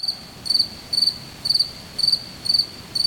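Cricket chirping played as a sound effect: about six short, bright chirp bursts repeat in an even rhythm over a faint steady hiss, with no voices.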